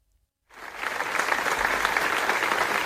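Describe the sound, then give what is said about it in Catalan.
Applause at a memorial gathering in Manresa for a murder victim begins abruptly after a brief silence and continues as a steady, even clapping of many hands. “I aquest és el so d'una de les tres concentracions que hi ha hagut de record a la víctima, en Carles, en les darreres 24 hores a Manresa.”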